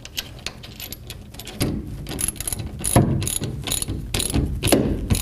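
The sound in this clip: A ratchet wrench tightens a bolt on a roll-up cover, its dry mechanical clicks coming in many quick bursts that grow somewhat louder toward the end, with no talk.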